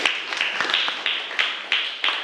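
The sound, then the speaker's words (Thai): Sparse clapping for a student during a lesson, a few hands patting in uneven, separate claps that stay fairly light throughout. “ปรบมือให้กับวริศด้วยค่ะ”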